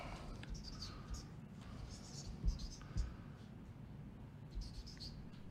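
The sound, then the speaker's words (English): Faint handwriting: a pen or pencil scratches across paper in short, intermittent strokes, with a couple of soft low knocks, all very quiet. “I can't talk and write at the same time”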